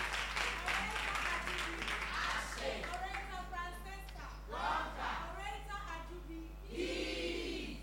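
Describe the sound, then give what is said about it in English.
An audience applauds debaters at a high school debate competition, with clapping in the opening seconds followed by cheers and raised voices. “Please put your hands together for yourselves. Oh, put your hands together for your own selves. You sang well. And let's welcome your debaters as well.”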